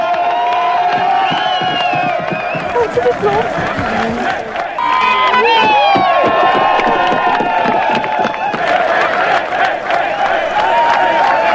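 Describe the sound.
Crowds in East Germany cheer at the fall of the Berlin Wall in November 1989, a loud, steady surge of excited shouting and calling voices that never drops away.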